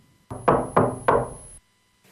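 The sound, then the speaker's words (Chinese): Three polite, evenly spaced knocks on a dormitory door, each a firm, solid thud with a short decay, followed by silence. “小马驹宿舍内，此刻门外正有人在客气地敲门。”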